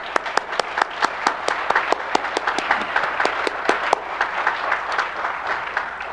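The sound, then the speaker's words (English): Sustained applause from an audience at a church service, a steady patter of many hands with distinct sharp individual claps standing out throughout. “How many appreciate him being here? Let's give the Lord a hand, can we?”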